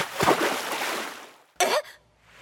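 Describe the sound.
Water splashing: a sharp onset opens a long, rushing splash that slowly fades out.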